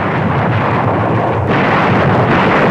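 Heavy, continuous roar of naval guns bombarding coastal defences from ships, a loud, dense rumble that rolls on without pause and with no separate blasts standing out.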